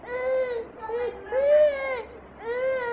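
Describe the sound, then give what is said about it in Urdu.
A young child crying at length, in repeated wailing bursts whose pitch swells and falls, moderately loud, with brief breaths and whimpers between the sobs. “یہ اتنی دیر سے روئے جا رہے ہیں, اتنی دیر سے.”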